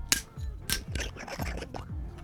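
A drink bottle being unwrapped and opened: several sharp crinkles and scrapes, some loud, mixed with softer rustling and small creaks.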